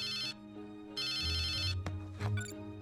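An electronic telephone ringtone in an animated cartoon scene sounds in two bright, warbling bursts, the second longer than the first. A few low thumps and short clicks follow after the ringing stops.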